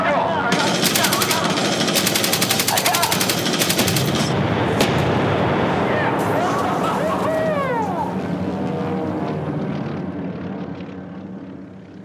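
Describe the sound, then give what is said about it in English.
B-24 bomber gunners fire machine guns at Japanese Zero fighters in rapid, loud bursts over the heavy drone of aircraft engines. The firing dies away and the engine roar slowly fades. “But the B-24 gunners annihilate both before they can finish their turns.”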